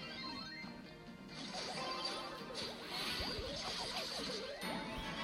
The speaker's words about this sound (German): Der Primo hat die Wand vor denen zerstört.